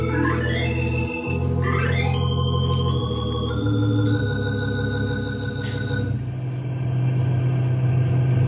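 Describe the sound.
A car drives along a road through a forest of giant pines, its engine a continuous low rumble with a shifting tonal hum above it, steady in loudness throughout.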